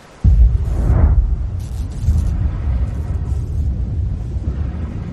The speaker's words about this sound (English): When you hear that big boom, time's up, baby. You got maybe a few seconds to wrap up whatever you were doing before this happens.